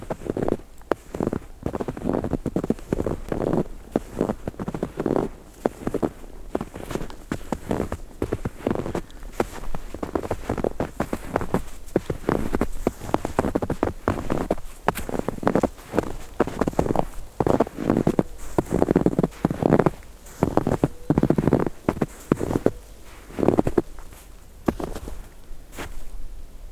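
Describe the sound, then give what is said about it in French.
Footsteps pressing through powder snow in the Pyrenees, a long, steady run of soft crunches at an even walking pace. “Et ce son de neige poudreuse.”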